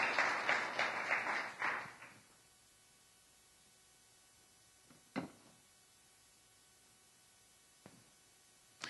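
Audience applause for a reader at a scripture reading: clapping lasts about two seconds and then fades, leaving quiet broken by a few faint thumps.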